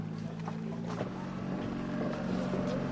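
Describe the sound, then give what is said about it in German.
The last evening ferry pulls away from a floating restaurant, carrying guests to shore: a steady, low engine drone mixed with a broad wash of water and wind noise at an even, constant level. “Und dann fährt sie leider, die letzte Fähre an diesem Abend, die die Gäste vom schwimmenden Restaurant ans Ufer bringt.”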